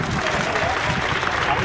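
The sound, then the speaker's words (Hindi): Crowds clap to welcome Catalan separatist leaders as they leave court after questioning in sedition cases, a brief burst of dense, continuous applause at an even level. “उनके अदालत से बाहर निकलने पर लोगों ने तालियां बजाकर”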